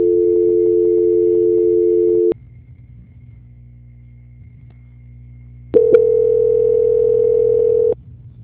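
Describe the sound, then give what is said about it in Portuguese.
Steady telephone line tone plays while a call is being transferred. A loud, even hum sounds for about two seconds, then a short click leads into a quieter stretch. A second click brings back a brighter, steady tone for about two more seconds. “Aguarde em linha só um minutinho que já estou transferindo a ligação. Tá? Certo. Transferência.”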